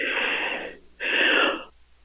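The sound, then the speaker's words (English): A strange wheezing noise like hard breathing comes in two airy, hissing bursts, each under a second long, separated by a short gap, fairly loud and with no talk over them. “Breathing hard. Like it's breathing hard, huh?”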